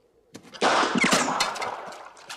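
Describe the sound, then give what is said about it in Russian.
Gunshots fired across a boggy moor: several sharp, loud cracks come in quick succession, and their ringing tails run into one another. “Банка вылетает из рук. Поскальзываясь по болоту, убегает Степлтон. Холмс стреляет. Выстрелы Ватсона.”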